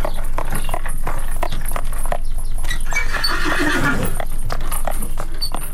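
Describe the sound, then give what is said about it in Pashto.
Horse hooves with iron shoes clip-clopping along narrow streets of an old European city, a busy stream of clattering hoofbeats over steady noise, with a horse's whinny mixed in. “د اروپا د زړو شهرونو په تنګو کوڅو کې د آس د نالونو ټک ټک”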